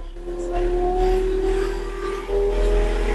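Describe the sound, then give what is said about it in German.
A small vehicle drives off after its gas pedal is pressed, giving a steady motor whine over a low constant rumble, with the whine holding a fairly even pitch and rising slightly in loudness near the end. “Wenn du jetzt das rechte Gaspedal leicht antippst, dann sollte er losfahren.”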